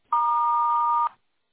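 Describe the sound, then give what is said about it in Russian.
A single steady electronic beep from an answering machine, signalling the start of a voicemail recording; one clean mid-high tone held for about a second, loud and alone, then silence. “Если хотите оставить ему голосовое сообщение, пожалуйста, говорите после звукового сигнала.”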